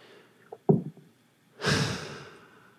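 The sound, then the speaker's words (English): A person breathes in through the nose and out through the mouth: a few short, sniffing intake sounds followed by a longer, breathy exhale that fades out, quiet and alone. “Notice I just took a breath. Whenever I breathe in through my nose and I exhale through my mouth, I always feel like I'm more clear.”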